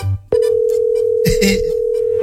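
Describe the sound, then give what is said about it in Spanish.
Continuous telephone dial tone after a dropped call, cutting in abruptly just after the start and holding steady to the end, with brief rustling and handling noises underneath. “se me cortó la llamada”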